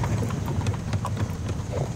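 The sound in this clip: Horse hooves clip-clop steadily as the animal pulls a carriage, the even rhythm of many hoofbeats continuing over a constant low rumble.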